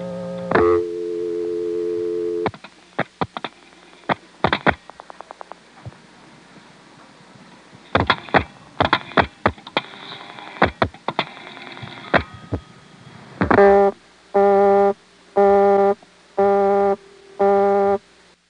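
Busy signal on a dialed telephone busy test line: a steady tone, then many sharp dialing clicks, then five even beeps of a loud interrupted busy tone.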